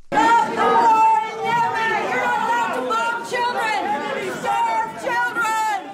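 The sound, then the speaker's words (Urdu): Women chanting slogans at a protest against Saudi bombing in Yemen, held at a cultural exhibition in Washington's Kennedy Center; loud group voices ring out in repeated chanted phrases, with short breaks between them. “یہ نعرے بازی Washington کے معروف Kennedy centre میں منعقدہ ایک ثقافتی نمائش میں کی جا رہی ہے”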